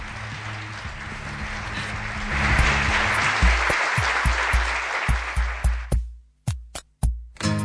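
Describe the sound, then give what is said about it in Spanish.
Applause from a crowd cheering a CD prize winner: a dense, loud wash of clapping that thins after a few seconds into a series of separate, sharp claps and low thumps. “¡Ah! ¡Un aplauso!”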